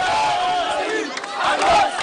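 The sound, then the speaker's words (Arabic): A crowd of protesters in Gaza shouts slogans and takbir cries. Many raised voices overlap in a dense, loud, continuous roar that swells again toward the end. “هتافات وتكبيرات صدحت من حناجر الثائرين في غزة”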